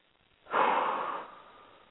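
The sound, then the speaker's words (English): One deep breath drawn in, a soft airy rush that swells quickly, then tapers away slowly, heard alone and fairly faint. “Whew, breathe that in and own it.”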